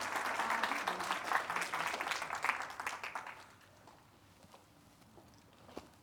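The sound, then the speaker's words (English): Audience applause rises as a dense, steady clapping for about three seconds, then thins and dies away to near quiet with a few scattered claps. “You guys can sit down, give them a hand.”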